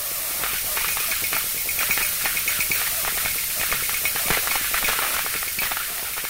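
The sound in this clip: A steam radiator hisses loudly and steadily, with many faint, irregular ticks and knocks scattered through the steady hiss.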